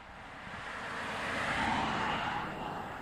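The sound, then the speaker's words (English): Traffic on Kentucky Highway 52, a two-lane state route, as a vehicle whizzes by: a broad tire-and-engine rush that swells steadily to a peak and then eases off, with no voices. “Vehicles whiz down Kentucky Highway 52”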